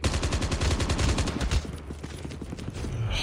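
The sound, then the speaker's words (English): Rapid automatic gunfire in the Call of Duty Mobile advanced fire tutorial: a dense stream of shots for about a second and a half, then sparser, lighter shots. “This is the advanced fire tutorial. Kill the enemies.”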